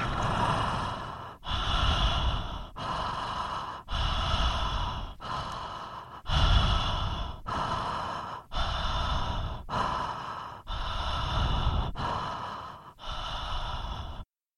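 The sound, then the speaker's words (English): Continuous connected breathing, each inhale flowing straight into the exhale with no pause, in a long steady series of loud, airy breaths alone without talk. “And this time, connecting our breath. No pause between the in and out breath.”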